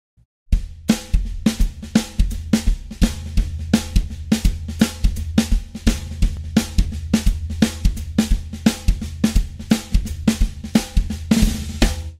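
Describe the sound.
A drum kit plays a New Orleans second line groove: a steady, bouncy pattern of loud, punchy hits with regular accents and slight hesitations, continuing alone without voices.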